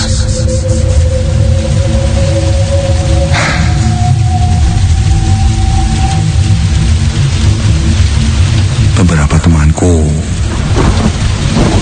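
Heavy rain pours down in a loud, steady, dense hiss that never lets up, with deep rolls of thunder rumbling underneath.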